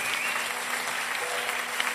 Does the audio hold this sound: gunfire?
no